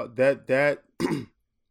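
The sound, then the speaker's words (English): Throat clearing comes in three short, loud, voiced rasping bursts, the last one briefer, each followed by a moment of silence. “I'm very sorry about clearing my throat.”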